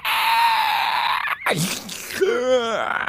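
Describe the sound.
A human voice imitates a dying creature's scream with a sustained shrill wail, then breaks into swooping, wavering cries.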